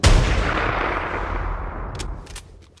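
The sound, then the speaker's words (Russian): A single heavy gunshot rings out in a fight against an armored cyborg, a sharp loud blast followed by a long rumbling decay that slowly fades, with no voices. “Киборг резко отпрыгнул в сторону, и лишь затем я услышал грохот выстрела.”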